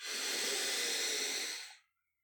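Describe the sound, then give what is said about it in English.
A long, deep inhalation during a guided meditation: one steady, airy breath that holds for nearly two seconds and then fades into silence. “And we breathe in deeply.”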